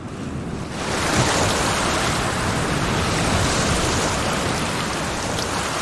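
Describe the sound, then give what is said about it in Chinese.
Sea waves wash in as the tide rises, a loud, steady, broad roar of surf that swells up after a quieter first second and then holds, with no voices. “潮水开始上涨”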